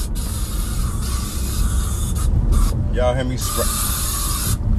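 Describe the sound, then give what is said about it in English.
A spray can hisses loudly in two long, airy, steady bursts separated by a short pause, over a constant low background rumble. “y'all hear me spraying out there.”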